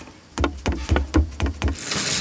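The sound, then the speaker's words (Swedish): A storybook forest train approaches at night with a rhythmic clatter: a run of evenly spaced, heavy clunks, followed by a rushing hiss. “Men det där låter ju som Sagoskogståget.”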